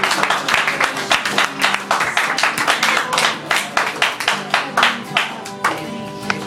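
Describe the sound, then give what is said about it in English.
A church audience claps hands in praise, with many loud, even claps in a steady rhythm that runs without pause. “Give the Lord one more hand clap of praise.”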